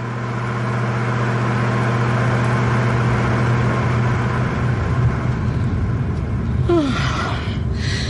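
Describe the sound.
A car engine drones steadily while driving on a long night road trip toward Keetmanshoop. The low, even hum holds without a break the whole time.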